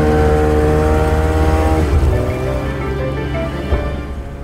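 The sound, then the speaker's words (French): A Ski-Doo snowmobile engine gives a loud, steady droning hum with strong buzzy harmonics, holding an even pitch throughout. “sa première motoneige, le skidoo, comme on l'appelle au Québec.”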